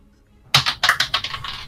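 Dice clatter onto the floor during a tabletop roleplaying game: a sharp first impact, then a quick run of bright, decaying clicks and bounces that taper off.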